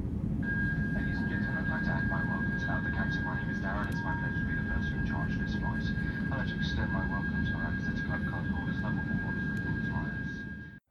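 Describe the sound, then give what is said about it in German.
Passenger jet taking off from Brussels airport, heard as a steady engine roar with a thin whine, while voices murmur over it throughout. “das ist auch schon der Take-off”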